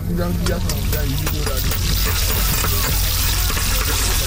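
Onions frying for breakfast at a campsite give a steady, loud sizzle with scattered small crackles and pops that continue evenly throughout.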